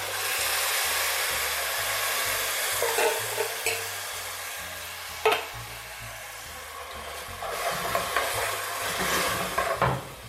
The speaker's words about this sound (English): So if I'm starting to see it start to brown again, I'm just gonna go ahead and add that can of tomato.